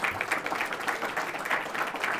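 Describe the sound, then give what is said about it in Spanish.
Audience applause for the Cubans: a moderate crowd claps in a busy patter of overlapping hand claps at a fairly quiet, steady level. “Bueno, levántese. Bueno, un aplauso para los cubanos.”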